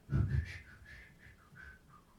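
A man whistling a tune, the whistle of a murderer in an early sound film scene: a faint, clear melodic line of short, shifting notes over a brief low rumble at the start.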